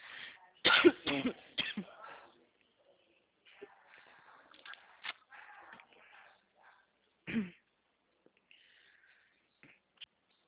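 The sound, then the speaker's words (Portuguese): Coughing: a short cluster of about three sharp coughs near the start, faint rustling, then one more isolated cough and a small final click. “Um pouco de tosse, ó.”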